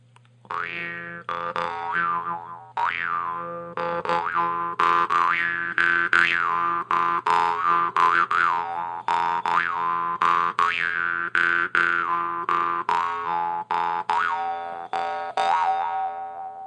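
A modern Tuvan jaw harp, a new instrument, played in a quick, steady rhythm of many twanging plucks. Its bright, buzzing drone carries vowel-like overtones that sweep up and down throughout, loud and alone without voices.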